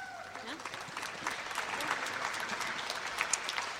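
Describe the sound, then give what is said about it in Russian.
A church audience claps together during a worship service, a dense and steady patter of many hands that stays fairly faint, with voices speaking over it. “давайте мы все встанем и все вместе похлопаем”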